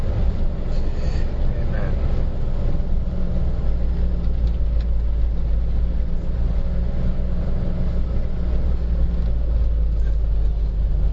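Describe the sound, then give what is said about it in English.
A car driving, heard as a steady, loud, low road and engine rumble that runs unchanged through the whole clip with no talking over it. “Yep, the joys of driving.”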